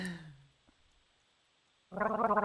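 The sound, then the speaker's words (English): Gargling pumpkin beer: a quick, wet, rattling bubble bursts out at the end after a short voice and a quiet pause. “let me gargle it.”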